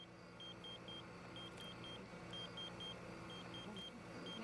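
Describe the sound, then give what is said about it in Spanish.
Pager beeping in repeated sets of three short, high, clean tones, four full sets and the start of a fifth, evenly spaced and faint over a steady low hum. “El sonido insistente de un localizador que rompió el silencio en el desierto.”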